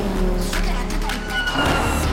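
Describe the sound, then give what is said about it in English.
Car engines roar as vehicles speed through a tunnel during a chase, a continuous low rumble with a broad hiss over it, steady throughout, while a voice talks over part of it. “Vickers follows. The cars continue to speed under an underpass.”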